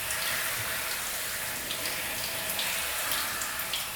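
Shower water runs in an even, continuous hiss, a broad rushing spray that holds steady without breaks or changes from start to finish.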